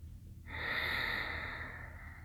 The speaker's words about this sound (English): Begin to close slightly through the back of the throat as you breathe, activating your Ujjayi breath. It's warmer.